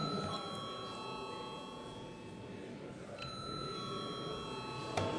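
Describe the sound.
An electric bell rings in a parliament chamber before a vote, a steady, continuous high ringing tone with a bright metallic edge held for several seconds over a low background murmur.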